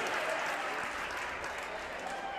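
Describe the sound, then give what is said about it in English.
Sustained applause from a basketball crowd rising to its feet to salute a school three-point record, a dense, even wash of clapping throughout. “Public address announcer Jeff Lamb makes it official. Crowd comes to its feet.”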